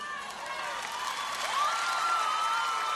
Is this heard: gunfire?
no